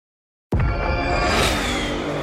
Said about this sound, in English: Did you hear that? That's what an estimated 500 horsepower sounds like.